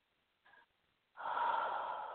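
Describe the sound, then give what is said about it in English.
Focused breathing during a guided heart-centered exercise: one faint, short breath followed by a longer, louder, steady airy exhale, heard alone with no talk. “Just breathe into your heart center for me. It doesn't have to be a deep breath. Just focused, connected breath.”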